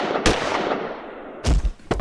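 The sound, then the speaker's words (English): Gunfire in a gun battle against villains, with shooters on a roof: a few sharp, loud shot bursts at irregular intervals over a steady, noisy background. “we are in the thick of a gun battle with an array of villains who are shooting at us for who knows why.”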